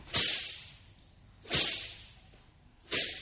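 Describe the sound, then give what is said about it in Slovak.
Whip sound effect for a fairy tale: three loud cracks at an even pace, each a sharp snap that trails into a falling swish through the air. “A vzduchom často bič zasviští.”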